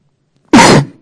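A single short, harsh cough or throat clear, loud and raspy, comes from someone with an itching throat. It fades out quickly afterward.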